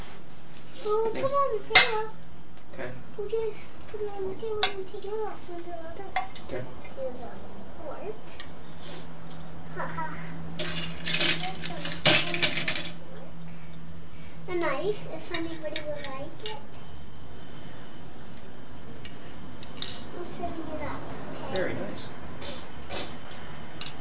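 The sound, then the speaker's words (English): Dishes and cutlery clinking while a table is set, with light scattered clinks and a brief clattering burst midway, heard under people talking, including a child. “Here's a fork. Haha. A knife, if anybody would like it. I'm setting it up, okay?”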